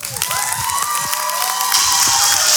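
A church audience cheers and claps in a warm welcome for the youth director. Broad, steady crowd noise holds throughout, with high whoops and shouts rising above it and growing slightly louder toward the end.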